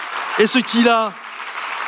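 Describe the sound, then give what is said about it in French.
Congregation applauding during a church service, a broad wash of clapping that runs under a speaking voice at first and then continues on its own at a steady, moderate level. “Alors, est-ce qu'on peut applaudir une dernière fois le Seigneur Jésus pour”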